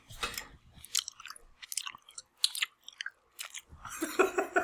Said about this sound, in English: Like the sound of eating.